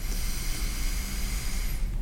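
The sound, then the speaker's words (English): A slow, deep breath drawn in through the nose, a soft, steady airy hiss lasting about two seconds before tapering off. “I want you to just take a slow, deep breath in through your nose”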